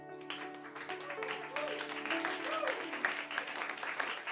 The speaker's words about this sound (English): Round of applause for Johnny Ciccolella.